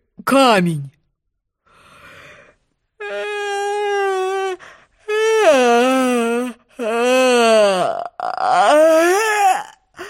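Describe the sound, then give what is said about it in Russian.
A big, drawn-out yawn voiced by a person imitating a unicorn: several long, loud, groaning stretches with sliding, wavering pitch, separated by brief pauses. “И он так зевнул, что чуть не порвал пасть.”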